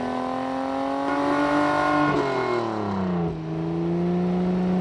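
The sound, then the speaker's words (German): A race car engine speeding down a street gives a loud, continuous revving whine that stays steady at first, then drops in pitch in the second half. “Und schwupps, ist Kalli ein Kalli-Rennauto und saust die Straße entlang.”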